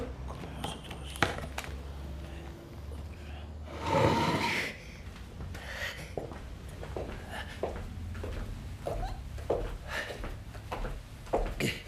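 A drawer is pulled open and searched, starting with a loud scraping rush, then many small knocks, clicks and rattles as items are shifted about.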